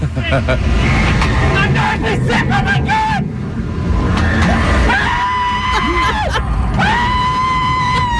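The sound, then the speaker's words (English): A man screams while going through a haunted house attraction. High, sustained shrieks and wails rise over a constant loud wash of noise, with other voices mixed throughout. “When you hear the guy screaming like a girl going through the haunted house”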